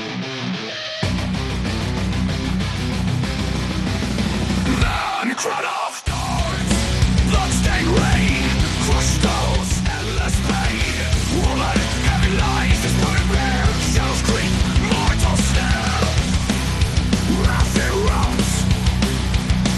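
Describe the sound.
Dense, loud rock music plays as the anthem of the League of Legends World Championship, with a heavy low end and a full band sound. A quieter opening builds, and a brief break near the middle gives way to the full arrangement again.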